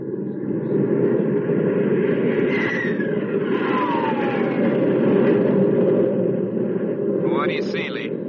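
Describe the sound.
Loud, steady engine drone of a fighter plane making a pass to identify another aircraft, a continuous rumbling roar that holds without a break while voices talk over it.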